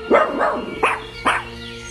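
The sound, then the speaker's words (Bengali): A dog barks four short, sharp times in a courtyard at someone, with brief gaps between the barks. “শেরির গলা কানে আসছে উঠোনের দিক থেকে, চিৎকার করছে কুকুরটা। আওয়াজটা অদ্ভুত না, কুকুরটা আবার কার উপর হম্বিতম্বি করছে কে জানে।”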